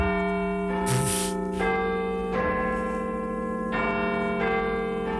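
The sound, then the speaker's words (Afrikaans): Big Ben, the great clock bell, chiming with loud struck tones that ring on and overlap. A few fresh strikes sound over the sustained hum, with no talk. “Dat is Big Ben.”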